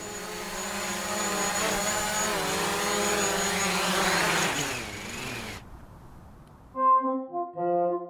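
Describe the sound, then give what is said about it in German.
A small drone descends from about 100 metres and lands. Its high, buzzing whir holds steady with a slightly wavering pitch, then cuts off abruptly into quiet. “Aber Mathilde ist bereits über mir. Ich hole sie jetzt aus den 100 Metern herunter. Es könnte von mir aus auch schneller gehen. Sie startet so schnell und sie landet so langsam.”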